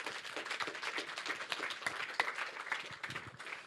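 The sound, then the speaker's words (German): Soft, steady applause from a church audience: dense, continuous clapping from many hands, fairly faint throughout with no voices standing out. “Vielleicht können wir Crystal einen Applaus geben für sein Wort.”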